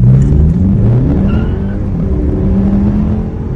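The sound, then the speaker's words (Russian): A car with only a combustion engine accelerates hard from a standstill at a traffic light. Its loud, steady roar pulls away while the low engine tone climbs in steps. “Ничего специального исполнять не буду, просто старт со светофора.”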